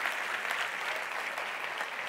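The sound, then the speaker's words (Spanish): Church audience applauding during a sermon, a fairly quiet but continuous patter of many hands clapping at an even level. “No, si usted quiere darle el aplauso al Señor, déselo bien.”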